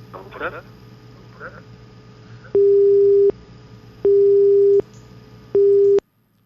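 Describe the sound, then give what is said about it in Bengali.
A telephone busy tone on a faulty phone line sounds as three loud, steady, evenly spaced beeps of equal pitch after brief talk at the start. “আমাদের phone লাইনের একটু সমস্যা হয়েছিল, phone লাইনটা ঠিক করা হচ্ছে, অনেকটা হয়ে গেছে”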